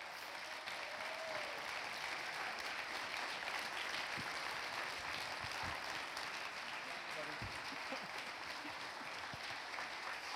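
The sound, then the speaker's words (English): A church audience applauds, a broad, steady roar of clapping that lasts for about ten seconds while voices call out over it. “would you get ready to give someone about the biggest applause that Rev City Church has ever given anyone?”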